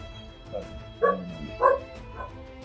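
Dog barking in a few short, yapping bursts, two of them clearly louder than the rest, over a low, steady background.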